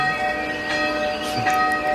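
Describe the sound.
Bell ringing with sustained, steady tones that hum on through the whole clip, with a faint shimmer of higher overtones and no speech.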